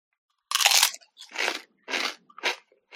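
Crunching bites of a fiery chili limon flavored chip: about four loud, dry crackling crunches in an uneven rhythm, heard alone, with a faint extra crunch at the very end.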